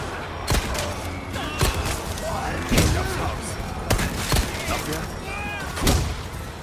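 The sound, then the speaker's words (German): Gunfire in the video game Resident Evil 4: several sharp, punchy bangs at irregular intervals over a continuous game soundscape, with a voice talking over them. “Resident Evil wurde ja, wie erwähnt, mit Teil 4 zu einem deutlich actionlastigeren Spiel, also wird auch hier tatsächlich ziemlich viel geballert.”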